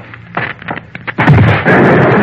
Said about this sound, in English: Wait, things exploding. I'll switch off the current.